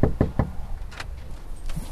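Three quick, sharp knocks on a house door by a candidate canvassing a neighborhood in the middle of the day, followed by quieter, fainter background sounds.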